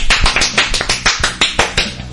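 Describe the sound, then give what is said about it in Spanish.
An audience applauds performers with steady rhythmic clapping: many sharp claps on a regular, quick beat, loud and evenly paced. “¡Aplauso para ellas!”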